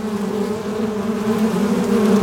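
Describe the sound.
Bees buzz in a loud, steady, unbroken drone with a low hum and layered overtones, sustained throughout with no voices.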